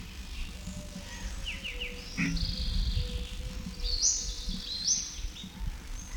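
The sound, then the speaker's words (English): Several birds calling: faint, scattered high chirps and short warbling notes over a steady low rumble and hiss. “There's still several birds present. These notes are indistinguishable.”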